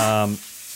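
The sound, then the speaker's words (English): Bacon frying in a pan gives a soft, steady sizzling hiss that follows a brief voice at the start. “You hear that sound? That bacon frying on the pan in the background?”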